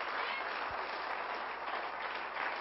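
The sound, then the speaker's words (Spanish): Applause for the Lord from a church audience: a dense, steady wash of many hands clapping that holds an even loudness throughout, with no break. “Denle un aplauso fuerte al Señor, Él vive,”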